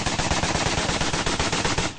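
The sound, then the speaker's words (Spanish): Heavy gunfire in an army combat clash: rapid, continuous machine-gun bursts crackle loudly and densely for the full two seconds, with no pause between shots. “publicó el momento en el que comienzan los disparos de un lado y de otro.”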